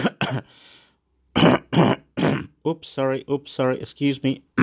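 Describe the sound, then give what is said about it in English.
Throat clearing: a couple of short, harsh bursts and a softer raspy rumble, followed by a person talking in quick phrases. “Got a little frog in my throat. Oops, excuse me.”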